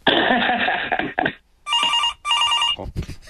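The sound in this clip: Telephone ringing while a call is dialed in: a dense rush of noise gives way to two short, trilling electronic rings, followed by a brief thump.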